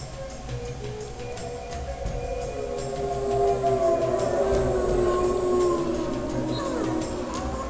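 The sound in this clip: A long, wavering howl from the king of a wolf pack, its tone swelling and bending over a low, rumbling background, loud and sustained throughout without pause.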